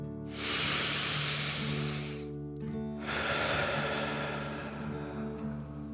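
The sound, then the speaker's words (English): Slow, soft breathing in and out during a relaxation exercise: two long, airy breaths, the first about two seconds and the second longer, over sustained musical tones. “Again, softly breathe in and out.”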